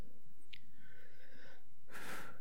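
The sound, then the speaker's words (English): A deep breath: a soft, drawn-out airy intake, then a short, stronger rush of breath. It is quiet and stands alone with no talking. “Deep breath.”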